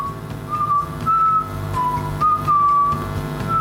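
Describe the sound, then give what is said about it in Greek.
Someone whistling a wavering tune in short phrases of clear, sustained notes with slight slides in pitch, over low background noise. “Ποιος φυρίζει?”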